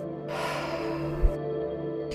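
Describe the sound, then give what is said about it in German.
A deep breath drawn in through the nose and released through the mouth makes a single long, airy rush over soft, steady background music, with a brief low thump midway. “dann dürft ihr ganz tief durch die Nase einatmen und durch den Mund aus”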